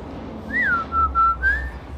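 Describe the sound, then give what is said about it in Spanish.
A person whistles a family call like the one a father used to summon his daughters: a rising-and-falling note, two short level notes, then a rising note, clear and fairly loud over a low hum. “Mi papá siempre nos chiflaba desde chiquitas así.”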